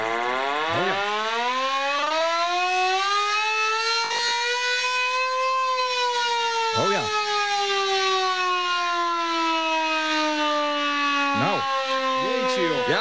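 A hand-cranked air raid siren sounds in a shed in Lekkerkerk. It gives a loud, continuous wail that climbs slightly to a peak and then slowly winds down in pitch over several seconds.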